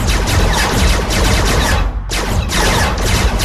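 Gunfire from several weapons fired at once, loud and dense. Rapid volleys run almost continuously, broken by one brief lull midway before the firing resumes at full strength.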